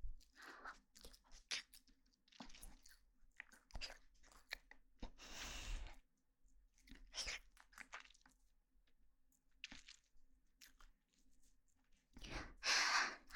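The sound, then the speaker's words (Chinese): Someone eats pudding with soft, wet chewing and mouth sounds. Many small, irregular bites and smacks come in clusters separated by brief quiet gaps, with no talk. “布丁好香啊！那么，我开动了。”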